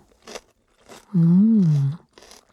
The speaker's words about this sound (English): Delicious. Not really nutritious, but it's awfully fun to chew.